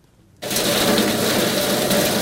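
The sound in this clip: A homemade electric grass chopper with a blade, driven by a capacitor-run electric motor under a welded iron-pipe table, switches on abruptly after a moment of silence. It settles into a loud, steady whirring and grinding drone with no voices.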